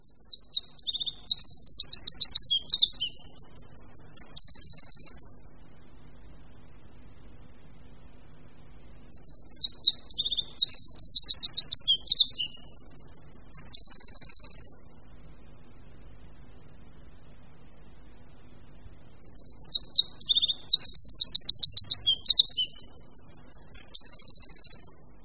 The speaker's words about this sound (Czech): Posloucháme zpěv Střízlíka obecného.